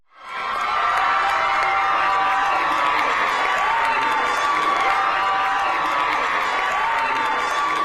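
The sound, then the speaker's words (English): A crowd of Kansas voters cheers and celebrates the rejection of a state constitutional amendment. Loud cheering, whoops and applause swell quickly within the first half-second and then hold at a steady, dense roar to the end. “That was the sound of Kansans celebrating the fact that they roundly rejected a possible amendment to their state constitution that would have enabled an abortion ban to take effect.”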